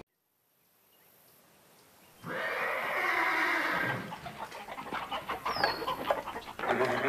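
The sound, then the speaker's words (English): Spooked horses and agitated chickens in a barn: after a near-silent start a loud horse whinny rises, followed by a choppy run of excited clucking and squawks from the fowl. “There was trouble last night. Oh, no! I'm coming. The chickens are all in a tizzy and the horses have been spooked.”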